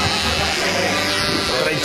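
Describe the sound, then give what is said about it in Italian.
An electric razor buzzes: a steady, dense, rasping drone that fills the whole moment at an even loudness without pause. “Il rumore del rasoio.”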